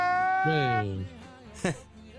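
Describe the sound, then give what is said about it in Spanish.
Recorded crying played back: wavering, wail-like cries with a strong tonal quality that slide downward in pitch, then a brief louder sob-like burst before fading. “voy a llorar. ¿Qué? Y pongo una grabación, porque no puedo ni llorar.”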